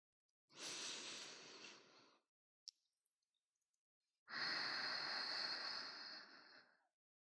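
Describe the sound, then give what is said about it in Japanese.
Deep breathing: two long, airy breaths separated by a quiet pause with a few faint clicks, each breath steady and sustained before trailing off. “次に深呼吸をしよう。普段から深呼吸やってないでしょ。”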